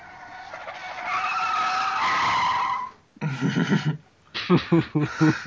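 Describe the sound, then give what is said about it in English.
A 1932 Duesenberg skids to a halt on the slipway of a seaplane airport: a loud, high tire screech lasting about three seconds that fades out, followed by voices. “1932 Duesenberg skids to a halt on the slipway of the airport.”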